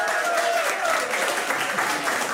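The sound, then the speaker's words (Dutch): Applause from an audience welcoming a singer at a live event: a dense, even wash of clapping that holds steady at full level, with some voices mixed in. “Geef haar een groot applaus, Gertie Kaspers!”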